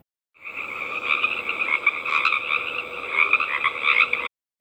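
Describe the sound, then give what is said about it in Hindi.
Frogs croaking after a tornado storm, a dense chorus of many overlapping, rasping calls that continues steadily and loudly from start to finish. “यह मेंढक हैं, लड़कों में से एक ने कहा। वे हमें बता रहे हैं कि तूफान खत्म हो गया है।”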